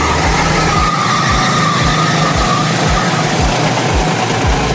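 Karts race on the Silverstone circuit in a field of about a hundred drivers, their engines forming a constant loud drone. Many low whooshing passes repeat at a steady pace throughout.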